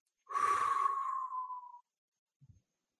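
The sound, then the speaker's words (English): One long exhale pushed out through the mouth during a group breathing exercise at a mental health town hall, a steady, airy rush lasting over a second, followed by a couple of faint, soft sounds. “So exhale all the breath out of your mouth.”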